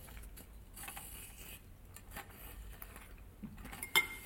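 Cutlery scrapes and clinks faintly against a pan as a small piece of sautéed veal is cut, with soft irregular scraping and one sharper clink near the end.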